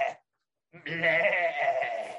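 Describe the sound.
A voice imitates sheep bleating: one short bleat, a brief pause, then a long, wavering, nasal bleat that holds steady and fades slightly at the end.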